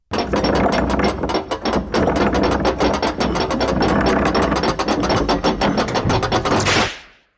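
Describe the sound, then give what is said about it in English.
A prize wheel spins with loud ratchet clicking, many rapid clicks in a dense, steady stream for about seven seconds before it stops and the sound fades away. “Okay, so let's spin the Wheel of Pain.”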